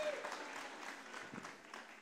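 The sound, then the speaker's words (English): Applause from a church audience for children after their performance: a steady, dense patter of many hands clapping that holds an even level for about two seconds. “Can we give them one more round of applause?”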